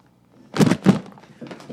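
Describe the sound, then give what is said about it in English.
Bomb sound effect marking a listener feedback segment: two heavy, booming thuds in quick succession, followed by a few weaker rumbling knocks. “You know, that sound is for the bomb listener feedback. The bomb.”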